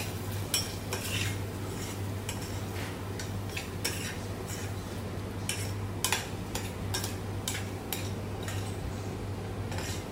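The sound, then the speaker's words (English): A utensil stirs coconut milk into sambal prawns in a pan after the heat is turned off, giving many irregular clinks and scrapes over a steady low hum, with no talk. “You can turn off the fire. Stir in the coconut milk.”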